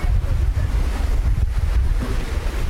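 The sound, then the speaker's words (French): Waves wash onto the shore of Lake Tanganyika near Bujumbura, where the water has risen above its usual level. The surf rolls continuously and loudly, with wind buffeting the microphone throughout. “Arrivant sur la plage du lac Tanganyika, communément appelé Sagavodo, on est accueilli par l'eau qui a monté comparativement à son niveau de départ.”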